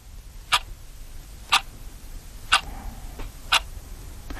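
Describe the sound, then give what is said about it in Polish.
A clock ticking: four sharp, evenly spaced ticks about a second apart, standing out over a quiet low background with no talk. “Komu dzwoni budzik? Dla kogo chodzi ten zegar?”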